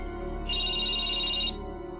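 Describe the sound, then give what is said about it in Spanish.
A telephone rings with an incoming call: one electronic trill of about a second, built from two bright high tones. It is fairly quiet over a low, steady background. “Uy, una llamada”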